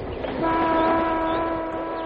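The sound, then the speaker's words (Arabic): A train arrives at a station and pulls out again. Sustained horn tones ring over a steady rolling rumble that swells slightly, then holds at a constant level throughout. “ياه، ده القطر وصل وطلع من المحطه كمان.”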